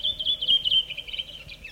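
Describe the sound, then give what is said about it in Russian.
A morning bird chorus in a birch grove near Leningrad in early May: busy, high-pitched chirping and trilling runs on almost without a break, with no voices. “Вы слышите сейчас утренний хор птиц березовой рощи, записанный в начале мая под Ленинградом. Далекое кукование кукушки.”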